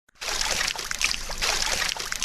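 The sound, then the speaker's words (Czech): Spring water pours steadily into an outdoor swimming pool at a 1932 spa in Mšeno that now serves as a public pool, making a continuous, even rushing and splashing flow with no voices. “Voda do bazénu natéká ze skalního pramene a v současných parných dnech návštěvníky skutečně osvěží.”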